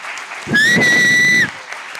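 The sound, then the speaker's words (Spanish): Audience applause, a short burst of clapping lasting about a second, with a steady whistle-like tone sounding over it before both stop together. “fuerte el aplauso para Cachas”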